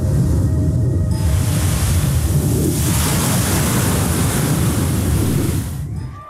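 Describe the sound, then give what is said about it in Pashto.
Ocean waves break on a sandy shore while a north wind blows, making a dense, steady roar of surf and gusts that eases off just before the end. “د شمال له پښه او د څپو له څړپا پرته ژغ ژغ نه و”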